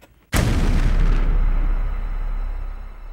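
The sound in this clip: A bomb inside a toolbox explodes with one sudden, heavy boom after a brief hush, followed by a long, rumbling roar that slowly fades away.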